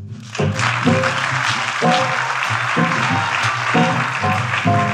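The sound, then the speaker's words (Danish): Studio audience applause greets a Danish politician arriving as a guest on a talk show, a steady wash of clapping running under repeated loud, punchy music chords that cut in and out across the whole stretch. “giv en stor hånd til Venstres Eivind Vesselbo.”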